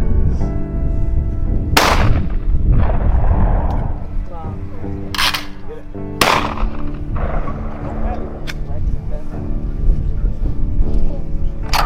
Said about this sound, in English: Everybody got a chance to shoot some trap targets.